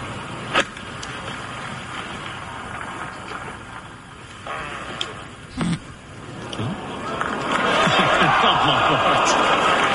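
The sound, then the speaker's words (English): A golf club strikes the ball with an odd, sharp crack on a shot toward a green, followed by voices talking over steady wind-like background noise, with a second brief thump later. “There's so much to say about that shot. The sound off the club face. That's extraordinary.”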